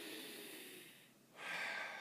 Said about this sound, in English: first, let's take a deep breath.